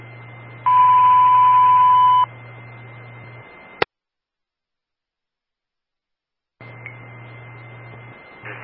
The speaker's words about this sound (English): This is the morning VTron test. All companies stand by for the box alarm tone followed by the radio test on channel 1.